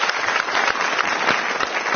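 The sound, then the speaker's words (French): Live audience applause at a public recording of a literary program, a dense, even patter of many hands with no breaks across two seconds. “J'applaudis Antoine Volodine et nos invités.”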